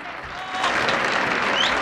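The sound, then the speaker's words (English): An audience applauds enthusiastically at a stage show as the curtain comes down. Dense, steady clapping swells after a moment and holds strong to the end. “John and George are at the front applauding enthusiastically.”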